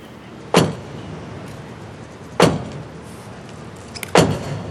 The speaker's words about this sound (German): Drei Schläge mit dem Bischofsstab.